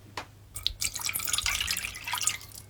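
Liquid pours into a pot of sesame mixture, with a few brief drips first and then a continuous splashing pour for about two seconds, with no voices.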